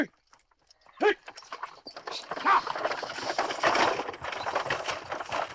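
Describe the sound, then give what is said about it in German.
A horse-drawn carriage drives away, the horse's hooves clip-clopping in a few irregular knocks that become a denser, steady clatter as the sound grows louder. “Traurig winkt Fanny der Kutsche hinterher, in der ihr Bruder sitzt.”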